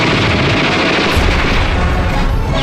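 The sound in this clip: Wartime gunfire from fighters in defensive tunnels, a dense, continuous barrage of overlapping shots and booms, loud and unbroken throughout.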